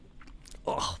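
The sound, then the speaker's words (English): Someone chewing a mouthful of eggs: a faint, brief burst of mouth-eating noise that rises once toward the end. “Let me try some of these eggs.”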